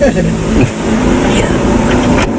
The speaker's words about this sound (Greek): Πάτα τώρα τη μίζα.